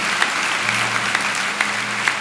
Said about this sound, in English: So let's greet the audience in the back hall there, everybody.